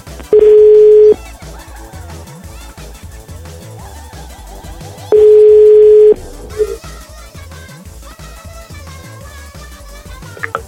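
Ringback tone while a call is being placed: two long, steady mid-pitched beeps, each just under a second, separated by about four seconds of quieter background sound.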